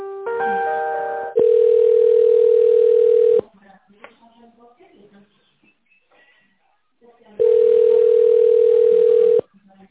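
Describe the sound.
Telephone ringback tone as a call is being connected: two long, steady, mid-pitched tone bursts separated by a several-second quiet gap with faint background noise, the first preceded by a brief buzzier tone.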